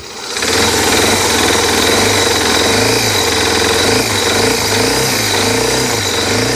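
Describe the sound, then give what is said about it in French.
An older motorcycle engine with a weak battery and carburetion trouble starts after a short pause and settles into a loud, steady running idle with a slightly uneven, wavering low throb. “la batterie qui est un peu faible, la carburation, c'est une moto qui est un peu plus ancienne. Donc du coup, voilà, il faut un peu plus de temps pour mettre en marche, mais voilà, c'est parti.”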